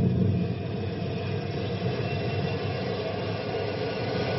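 A machine is thrown into gear to raise a gate, giving off a continuous loud mechanical roar and rumble that holds steady throughout, with no voices.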